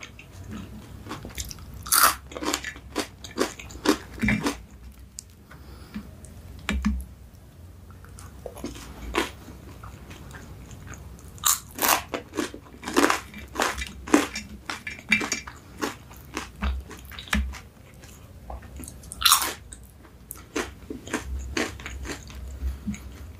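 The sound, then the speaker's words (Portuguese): Crunchy biting and chewing of a hamburger and fries, with many sharp, crisp crunches in irregular bursts separated by quieter moments of chewing, close and prominent with no talking. “Vou deixar essas batatas aqui pra ir comendo enquanto eu como o hambúrguer.”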